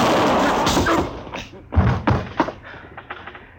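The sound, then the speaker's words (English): A gun goes off into the floor during a struggle. A loud, blast-like burst is followed by several heavy thuds and knocks of varying strength. “I held his arm so as he couldn't get his gun up. It went off right in the floor there.”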